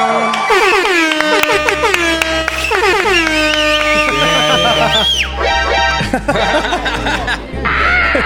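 Loud air horn blasts, used as a novelty sound effect, blare in a long run of sliding, brassy tones over a steady low music bed.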